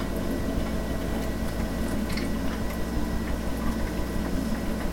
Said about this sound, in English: I'm going to just take a chance and pour. There we go.